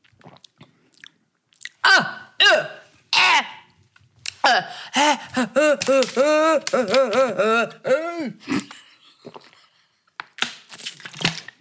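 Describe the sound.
Gulping down a foul-smelling blended drink with Emmentaler cheese puréed into it. Loud, uneven wet swallows come with strained, voiced grunts and throat noises, plus a few sharp bursts near the start and end.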